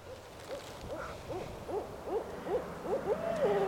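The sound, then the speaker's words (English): Barred owl hooting in a field lined with large old maple and oak trees: a faint, steady series of short, rhythmic hoots that builds into a longer, drawn-out call at the end, with no other voices. “I'm pretty sure it's a barred owl. They do all this like calling back and forth.”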